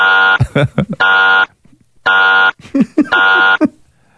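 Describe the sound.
A game-show buzzer sound effect blares in a few harsh, flat, sustained tones, each separated by short bursts of voices and laughter.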